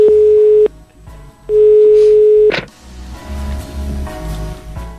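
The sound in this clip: A telephone call's ringback tone plays two long, steady, mid-pitched beeps with a short pause between them. A brief sharp burst follows, then a low, busy murmur of background sound.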